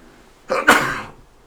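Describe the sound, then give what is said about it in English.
A single sharp human sneeze: a quick intake, then a loud burst that fades away within about half a second, alone against near silence. “Sneezes don't lie, man.”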